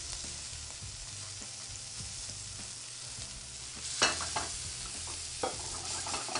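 Food sizzles in a hot pan after being flipped to cook the other side, with the pan lifted slightly off the heat. The frying hiss is steady and bright, with a few sharp clicks and spatters near the end.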